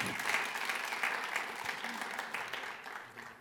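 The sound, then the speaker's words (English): Audience applause welcoming a speaker, a dense, even wash of clapping that holds steady, then gradually thins and fades toward the end. “Welcome, Brian. Give him a big hand.”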